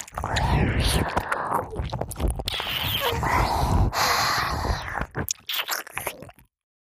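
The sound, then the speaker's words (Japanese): Close, wet chewing of someone eating, with many squishy bites and crunches and soft whispering woven through, before the sounds break up and stop. “ごちそうさまー。先輩めっちゃ食べてたね。見てて気持ちいいくらい。”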